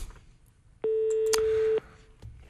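A steady telephone ringing tone sounds as a number is called back: one loud, even burst of about a second, rising out of faint background hiss and then cutting off.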